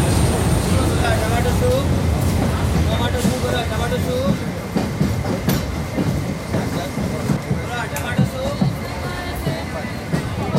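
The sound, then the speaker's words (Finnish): Railway station ambience at Kannur station while waiting for a train: a dense, steady wash of crowd babble and rumbling mechanical noise, with scattered clicks and clatters rising out of it and people talking in the background throughout. “Kannurin asema. Odotetaan junaa Mangaloren kautta Karvariin, josta jatkamme autolla Kokarnaan.”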